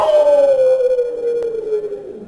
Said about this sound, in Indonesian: Anjing serigala melonglong karena dia menengok setan lari.